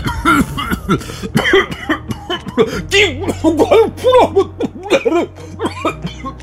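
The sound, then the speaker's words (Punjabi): Coughing from a man with a small piece of chicken stuck in his throat: a rapid, continuous series of harsh, voiced coughs and gasps, loud throughout, with a low steady hum underneath. “ਇਹ ਕਹਿੰਦੇ ਹੋਏ chicken ਦਾ ਇੱਕ ਛੋਟਾ ਜਿਹਾ piece ਉਹਨਾਂ ਦੇ ਗਲੇ ਵਿੱਚ ਫਸਿਆ ਅਤੇ ਉਹਨਾਂ ਨੂੰ ਖੰਘ ਸ਼ੁਰੂ ਹੋ ਗਈ।”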